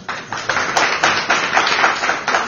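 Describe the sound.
An audience claps in a thick, continuous patter, with loose rhythmic surges running through it for about two and a half seconds and no talking.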